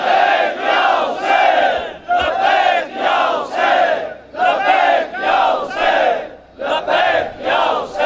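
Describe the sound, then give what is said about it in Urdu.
A large crowd chants the religious slogan "Labbaik Ya Hussain" in loud unison. The phrase repeats in strong, rhythmic bursts separated by brief pauses, with no single voice standing out. “اور یہی نعرہ ہمارا, لبیک یا حسین.”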